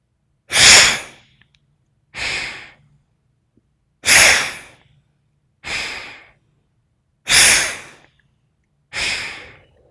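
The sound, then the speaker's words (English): Forceful exhales and inhales from a breathing exercise, six sharp rushes of air spaced evenly about every 1.7 seconds, with louder bursts alternating with slightly softer ones, and no talking. “forceful exhale, forceful inhale. Exhaling on side one, inhaling on side two for step one.”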